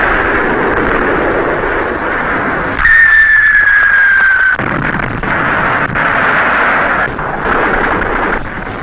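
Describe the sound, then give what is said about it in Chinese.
Artillery cannons firing: a dense, loud rumbling roar with a high whistle that falls slightly in pitch midway before the heavy rumble continues. “会有这么多的大炮呢”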